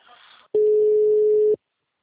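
Telephone ringback tone while waiting for an answer: one steady, loud beep of about a second follows faint background sound, then silence.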